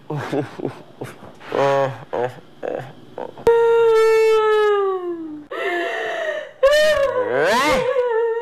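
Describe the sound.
A person wails and cries in long, loud, high harmonic moans whose pitch sags slowly, then breaks into shorter wavering sobbing cries near the end. Talking comes first, before the crying starts.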